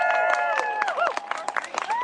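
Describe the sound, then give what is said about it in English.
Crowd applauding at an outdoor gathering in Union Square Park, scattered sharp claps mixed with whooping, cheering voices that rise and fall over the clapping. “How about a round of applause for Pamela Rice?”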